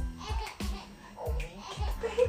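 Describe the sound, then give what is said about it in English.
A baby cries in the background, giving a few short, wavering wails and fussy whimpers that rise and fall in pitch, fairly faint throughout. “Oh, it's a baby. Uh-oh. Baby's crying.”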